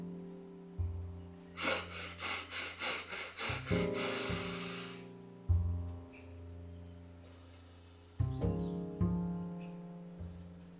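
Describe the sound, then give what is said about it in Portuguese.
Breathing exercise with several quick sniffing breaths through the nose followed by one longer, drawn-out breath, all soft and rhythmic over quiet, steady background music. “é um exercício de respiração. São quatro respirações curtas pelo nariz e uma longa. E a gente então repete esse ciclo quatro vezes.”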